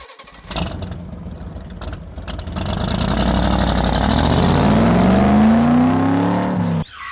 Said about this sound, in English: Okay, so let's drive over to the event and get ready to run a 5K in the park.